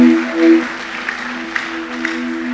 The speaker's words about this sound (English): Let's put our hands together for this great God.